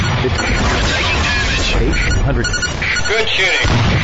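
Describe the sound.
Artillery fire in a tank combat video game roars as a dense, continuous barrage of booms and blasts, loud and unbroken throughout.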